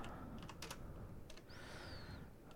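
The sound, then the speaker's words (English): Typing a comment on a computer keyboard: a few scattered key clicks over a steady background hiss, with a thin high tone gliding briefly in the middle. “You can just kind of type a message.”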